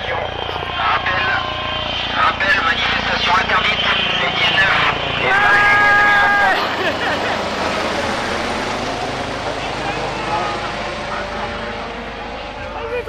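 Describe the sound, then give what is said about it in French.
A helicopter flying overhead gives a steady, loud engine and rotor drone that swells slightly and then eases over several seconds, while people keep talking throughout. “Ah, un moustique en voie de disparition. Ah non, c'est un hélico.”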